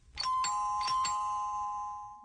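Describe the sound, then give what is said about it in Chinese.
A doorbell rings with two soft ding-dong chimes, bright tones that ring on and slowly fade after the last strike. “老人正说着，忽然传来了门铃声。”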